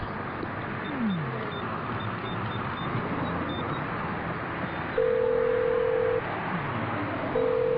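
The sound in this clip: Telephone line tones as a call goes through: a steady mid-pitched beep about a second long, then another starting after a pause, over a constant noisy background hiss.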